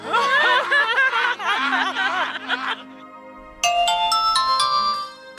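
A phone ringtone plays loudly, a warbling electronic melody that fades into a sustained tone, then a brighter chiming phrase follows after a brief pause.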